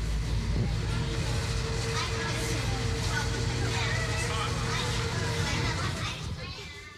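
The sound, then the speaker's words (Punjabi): Children's chatter and shouts fill a loud, steady wash of noise over the low rumble of a school bus carrying them to school. The sound holds constant, then fades slightly at the end. “ਬੱਚੇ ਬੱਸ ਰਾਹੀਂ school ਜਾ ਰਹੇ ਹਨ। ਇਹ ਆਮ ਤੌਰ 'ਤੇ ਇੱਕ ਆਮ ਸਵਾਰੀ ਹੁੰਦੀ ਹੈ”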